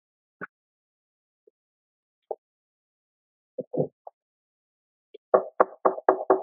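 Knocking on a church door: a few soft, scattered taps, then a quick, loud run of several sharp knocks near the end, with no voices.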